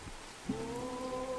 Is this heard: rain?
yes